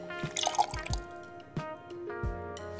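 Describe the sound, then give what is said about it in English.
Rum poured into a glass: a few liquid glugs and drips over a steady humming tonal background. “So here we go. Pouring that in.”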